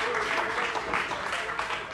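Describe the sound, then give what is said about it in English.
A church audience claps hands together in a dense, steady patter of many hands, even and continuous through the short stretch. “In the name of the Lord Jesus, in the wonderful name of Jesus, if you love him, why don't you clap your hands?”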